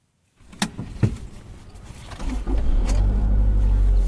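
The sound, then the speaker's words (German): A car drives up into the hills of Bisesero in Rwanda, past terraced fields and banana plantations: a few sharp knocks come early, then a steady low engine rumble builds and holds to the end. “Zusammen mit Eric Nsabimana fahre ich in die Hügel von Bisesero. Wir fahren vorbei an terrassenförmig angelegten Feldern und Bananenplantagen”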